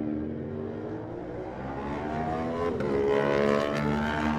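An Aprilia racing motorcycle engine revs at a race start with a steady, buzzing whine of layered harmonics that grows slightly louder toward the end.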